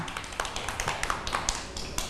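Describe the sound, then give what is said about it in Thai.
Children clap during a school lesson, a light scatter of quick, sharp claps that are irregular and fairly faint rather than a full, dense ovation. “เด็กๆปรบมือให้น้องขนุนด้วยค่ะ”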